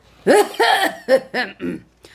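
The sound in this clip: A voice imitating a magistrate's repeated fake coughs and throat clearing while he rides atop a tall palanquin: five short, voiced, gruff ahem-like bursts in quick succession, fairly loud, with a faint trailing sound at the end.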